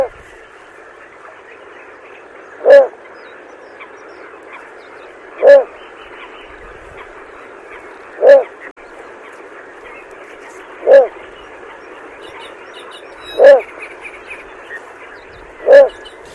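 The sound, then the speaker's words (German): A little bittern calling at night from swampy, reed-choked water: six short, low, frog-like croaking notes repeated at an even pace of roughly two and a half seconds, each one alone over a faint steady background hiss. “Schon froschähnlich, ne? Aber diese Reihe und dieses Ruh, das ist typisch für die Zwergdommel.”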